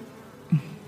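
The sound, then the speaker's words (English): Honeybee wings buzzing in a low, steady hum, with a short louder swell of the buzz near the middle of the brief clip. “a honeybee's wings beat 230 times per second. It's this wing beat that produces the distinctive bee buzz.”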